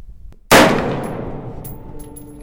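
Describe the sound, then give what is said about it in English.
A single sharp, loud gunshot from an AR-15 rifle at a desert shooting range cracks out suddenly, then trails off in a long, fading ring that lasts for well over a second, with no voices over it. “We were shooting an AR-15.”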